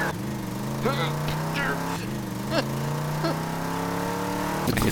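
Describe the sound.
A ride-on vehicle drones steadily with a low, constant engine hum as it is driven, while voices talk over it throughout.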